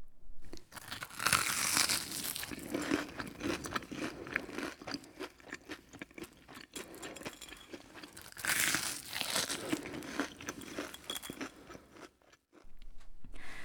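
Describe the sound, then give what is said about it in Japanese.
Crisp, crunchy chewing of hot, thick-cut fried horse mackerel from Matsuura, with bursts of crackling batter and crumbly bites that swell loudest in two stretches and go briefly quiet near the end. “松浦のアジフライスタジオにご用意したので、私いただいちゃいます。皆さんもよかったら熱々のアジフライを想像しながら音聞いてください。”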